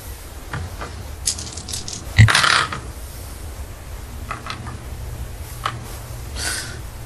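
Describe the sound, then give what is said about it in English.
Pink sparkly dice rolled during a tabletop game: a brief clattering rattle near the middle, over a steady soft background hiss. “I'm never going to not use these pink sparkly dice. The double number keeps rolling zeros, so I just got a 7.”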